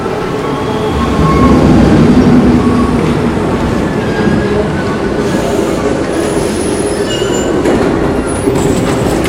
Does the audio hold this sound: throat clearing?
no

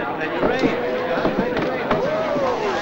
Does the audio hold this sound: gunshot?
yes

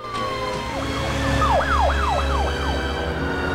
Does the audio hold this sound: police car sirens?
yes

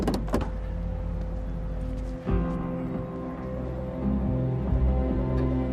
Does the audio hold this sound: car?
yes

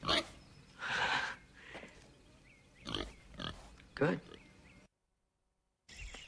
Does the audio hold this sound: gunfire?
no

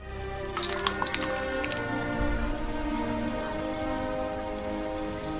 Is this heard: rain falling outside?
yes

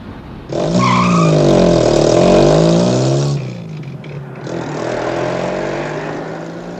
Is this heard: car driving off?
yes

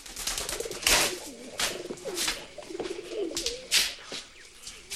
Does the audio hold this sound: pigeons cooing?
yes

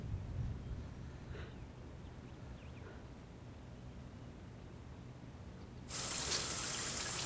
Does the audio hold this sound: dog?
no

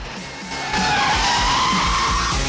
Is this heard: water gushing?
no

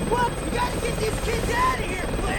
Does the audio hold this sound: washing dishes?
no

